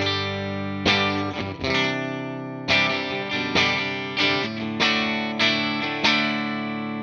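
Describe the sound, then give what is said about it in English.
Electric guitar with a clean tone through an AC-15 amp's normal channel on the bridge pickup. It strums several bright, ringing chords with sharp attacks in a steady rhythm, playing alone. “right now I'm on the normal channel of the AC-15, and the clean tone sounds like this on the bridge pickup.”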